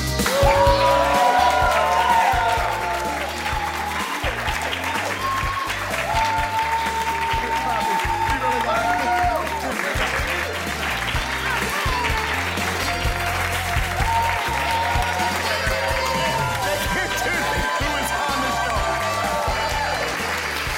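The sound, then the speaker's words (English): Live audience applause builds into a courtesy standing ovation: long, sustained clapping from a crowd, loudest at the start, then holding steady, with voices and scattered cheers riding over the dense clapping. “Audience at home, a couple members of the audience, including one person who was on the show and one person who runs the network, pressured the whole rest of the crowd into a courtesy standing O.”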